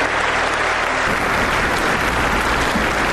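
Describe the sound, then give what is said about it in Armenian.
Standing ovation applause from European lawmakers after a roughly 40-minute speech by Armenia's prime minister: dense, steady clapping that fills the whole stretch at an even, loud level, with no voices standing out. “Փաշինյանի շուրջ 40 րոպեանոց ելույթին եվրոպացի օրենսդիրների հոտնկայս ծափահարությունները հաջորդեցին։”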